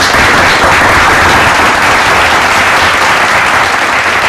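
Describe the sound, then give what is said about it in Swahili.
An audience claps loudly and densely without a break, a thick, even wash of applause with no voices standing out. “Makofi tafadhali. Amepigwa na makofi tena.”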